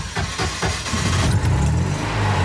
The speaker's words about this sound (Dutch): We starten altijd een beetje gas geven. Moderne auto's hoef je geen gas te geven.